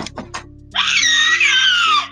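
Screaming breaks out: a few brief sharp sounds, then a loud, shrill, sustained scream that holds for over a second.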